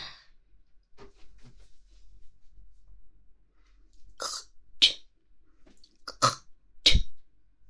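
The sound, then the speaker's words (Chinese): Someone with an irritated throat hawks up and spits out phlegm in several sharp, rasping bursts during the second half, after a stretch of near silence with faint breaths and small mouth sounds. “嗓子不舒服，有痰怎么办？但是在你耳边吐出来了，是吧？”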